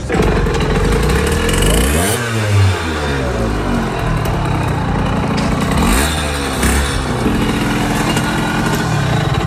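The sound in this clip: German Kreidler 50cc motorcycle engine running loudly and steadily, its pitch dipping and climbing twice as the throttle is worked, with a rough, buzzing tone throughout.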